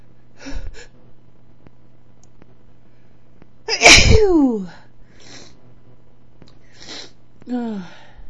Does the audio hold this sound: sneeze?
yes